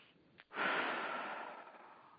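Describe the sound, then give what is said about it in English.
A group of people take a deep breath together: one long, soft inhale swells up about half a second in, then slowly fades away over the rest of the moment, quiet and with no talking. “So everybody with me, let's all take a deep breath.”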